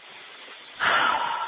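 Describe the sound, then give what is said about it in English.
A single deep breath drawn in sharply, an airy, breathy rush that starts suddenly and stays full for under a second before easing, heard alone with no talk. “And then you always, always, always need to take a breath. So you take a breath.”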